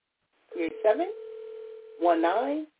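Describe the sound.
A call placed on a telephone line: a steady single electronic tone holds for more than a second, with short, warbling voice-like bursts just before and after it.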